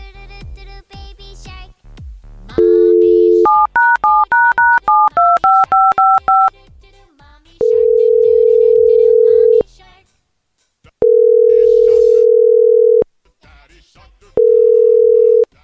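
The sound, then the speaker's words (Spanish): Touch-tone dialing of a pharmacy's phone number: a short tone, then a quick run of keypad beeps, followed by three long, steady ringback tones separated by silent gaps. “vamos a marcar a la farmacia”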